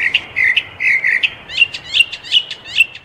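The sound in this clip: Birds singing, a bright, high chirping song of many short repeated trills and tweets in quick rhythmic bursts, loud and alone without talking.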